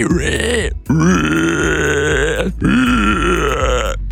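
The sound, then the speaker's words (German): A human voice imitates a screaming wild boar with three loud, harsh, strained squeals separated by brief breaks, each held for about a second or more with a grunting, rasping edge. “Und uns ist zu Ohren gekommen, du kannst eine Wildsau. Eine schreiende Wildsau, ja.”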